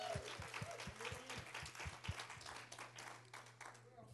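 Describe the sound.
Applause from a church audience welcoming visitors at a Sunday service, many claps blending into a steady, even patter that carries on throughout.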